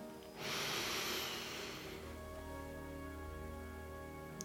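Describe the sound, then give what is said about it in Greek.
A slow, deep breath drawn in during a calm guided relaxation exercise: a long, soft, airy inhalation lasting about one and a half seconds, alone over a steady, quiet sustained background tone. “και ακόμη μία χαλαρή, ήρεμη, βαθιά εισπνοή”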